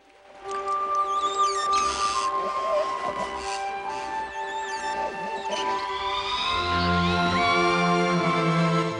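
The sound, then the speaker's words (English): Wet fingers rubbed across the rubber hull of an inflatable boat produce continuous high, whiny squeaks and squeals whose pitch wavers and slides, with rubbing friction noise underneath. “He wets his fingers, then rubs them across the rubber hull.”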